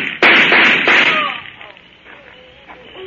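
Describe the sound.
A gunshot in an old radio crime drama: one sharp, loud crack near the start, followed by a noisy tail that fades away over the next couple of seconds.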